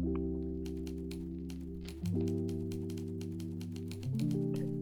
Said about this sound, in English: I can't really type while I'm talking.